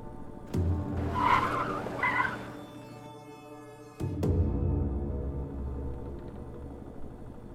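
Car tires squeal in a skid over a steady engine drone. A sharp jolt follows, then the engine keeps running as the car pulls away, with no voices.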